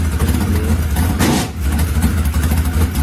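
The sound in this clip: Engine rumble from an open-wheel modified race car fitted with a four-barrel carburetor, a loud, continuous low growl that holds steady except for one brief dip in the middle.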